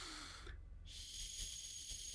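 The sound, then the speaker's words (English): A slow inhale through the nose before a breath is let out through a Komuso breathing whistle, heard as a faint, airy hiss with a short break partway through before the soft draw continues. “And it simply works like this: you just inhale through your nose”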